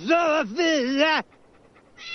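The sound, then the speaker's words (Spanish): A dog whimpers in high, drawn-out whines that waver in pitch. Two long whines come in close succession, then a quieter pause, and another begins at the end. “un indigente le lanza uno de sus perros a Eleanor Abernathy”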